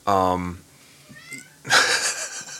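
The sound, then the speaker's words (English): A cat meows: a loud, clear meow first, then a faint short one, then a longer, rougher, noisier cry. “Cat's like, tell him.”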